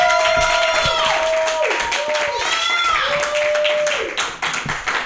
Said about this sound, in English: Put your hands together for Matthew Quirk.